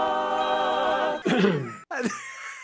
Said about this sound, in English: And the cough at the end is the best.